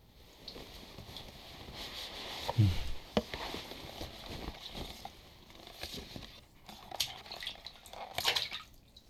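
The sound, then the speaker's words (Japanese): Bath additive being poured into a tub of bathwater: faint, uneven watery trickling and splashing, with one brief louder splash partway through and light drips around it, no talk. “入浴剤これから入れるよ。”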